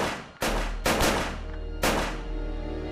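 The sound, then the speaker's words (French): Gunshots fired at a man on a street in broad daylight: a few loud, sharp blasts with ringing tails, spread unevenly over a few seconds, with no talk. “Lee Harvey Oswald lui tire dessus. 5 balles dans le corps.”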